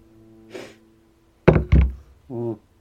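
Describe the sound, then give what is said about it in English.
Two loud, hollow knocks on a door land in quick succession. A faint breathy sound comes before them, and a short voiced murmur follows. “So before I go to bed, I'm going to knock on Pat's door.”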